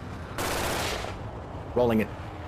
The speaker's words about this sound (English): the guy on the back fires his assault rifle at the back of the vehicle.